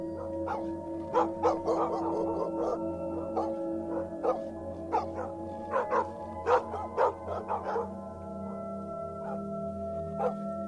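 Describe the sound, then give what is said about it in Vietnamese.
Village dogs bark loudly at night, a long run of sharp, repeated barks and yips in irregular bursts over a steady humming background, with no talking. “Chó ở trong làng thấy động, cứ thế mà chĩa ra ngoài cắn lên ông ổng.”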